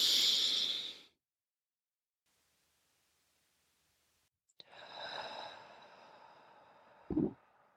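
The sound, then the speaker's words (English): A deep breath begins with a brief, airy intake, then a silent pause, then a longer, softer exhale that ends in a short, low snort-like puff. “To bring us back into the present, we're just going to take a deep breath.”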